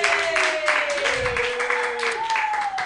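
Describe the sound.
Applause from an audience at a comedy workshop, greeting a comedian as she leaves the stage. Steady clapping runs through the whole moment, with a few high sustained whoops rising above it.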